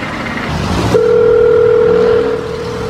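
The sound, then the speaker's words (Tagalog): A telephone ringback tone sounds while a call is placed: after a short burst of noise, one steady mid-pitched tone holds for over a second and then stops. “Tawagan ko si Nathan.”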